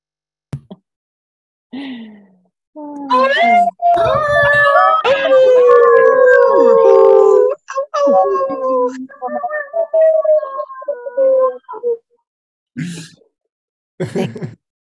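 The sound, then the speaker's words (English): Several people howl together like wolves during an online workshop, their long wavering voices overlapping and sliding up and down in pitch. Short, isolated howls come before and after the loud, dense chorus. “Let us unmute ourselves. We're going to howl out, y'all.”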